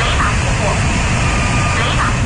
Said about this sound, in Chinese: 舰载战斗机飞行员驾驶战机依次起飞升空，组成战术编队奔赴预定海空域